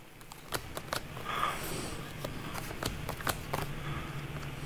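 Tarot cards being shuffled and drawn, a faint, irregular run of quick papery flicks and taps spread over several seconds, with no talking.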